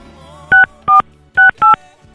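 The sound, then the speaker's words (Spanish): Four loud touch-tone beeps as a telephone number is dialed. The short, steady tones come in two closely spaced pairs, each separated by a brief silence, with no voices. “Vamos a marcarle en estos momentos a esta persona que pues hace un año se fue.”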